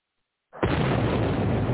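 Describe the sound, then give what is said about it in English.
Bomb explosion sound effect: a sudden, loud blast breaks a brief silence and swells into a sustained, roaring rumble that holds to the end. “We're going to drop a double bomb since it was $250s.”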